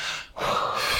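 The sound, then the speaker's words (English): A nervous speaker takes a quick, sharp intake of breath, a brief airy gasp between moments of steady breath noise, with no words spoken. “I'm so sorry, I'm nervous, I'm going to”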